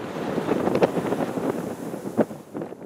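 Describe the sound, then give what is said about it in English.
Wind blowing through native prairie grasses in Nebraska's Niobrara Valley gives a steady, low rushing with soft gusts and faint rustling throughout. No voices. “That is the sound of the wind blowing native grasses in Niobrara Valley of Nebraska.”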